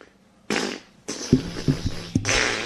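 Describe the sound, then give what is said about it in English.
Flatulence comes in a few loud, raspy bursts, some with a buzzing, tonal flutter. The bursts follow one another closely with short pauses between them. “Alvin doesn't go to his sound library and dial up flatulence, you know, from some service that we pay for.”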